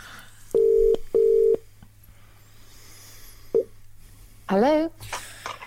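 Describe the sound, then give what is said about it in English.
Telephone tones while a number is dialed: two steady, identical beeps of about half a second each, then a click, and later a brief rising voice-like sound. “I'm getting dialing of a number. That's what I'm getting.”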